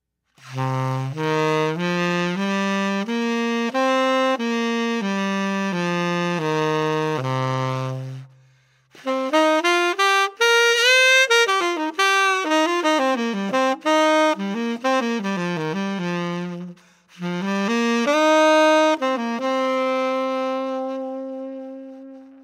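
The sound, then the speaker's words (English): C minor pentatonic scale played as clear, sustained single notes in three phrases: a steady run of notes, then a quicker run up and back down, then a final held note. “Item number one on the sheet is the C minor pentatonic scale. All of our examples today will be in C to keep it simple. And here is the sound of this scale.”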